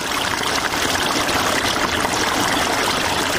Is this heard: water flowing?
yes